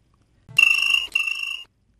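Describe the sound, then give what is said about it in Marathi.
A telephone rings for an incoming call with a clean electronic tone in two joined bursts, briefly broken in the middle, and lasting about a second. Near silence surrounds it. “श्रोतो हो, आता मी या कार्यक्रमातला पहिला phone receive करतोय.”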